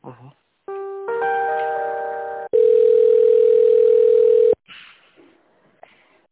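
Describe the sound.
Telephone line tones play while a call is transferred: a cluster of stepped electronic tones gives way to one long, steady, loud tone lasting about two seconds, with brief faint voice sounds before and after.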